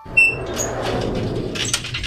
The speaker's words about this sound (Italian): hanno chiuso la porta! Non possiamo più entrare!